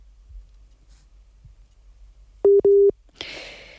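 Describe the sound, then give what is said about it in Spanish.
A telephone busy tone follows a dropped call: two short, steady electronic beeps of the same mid pitch in quick succession, then a burst of hiss. A few faint clicks come before the beeps. “Uy, se ha interrumpido la comunicación. Vamos a intentar recuperar la llamada con Ousmane.”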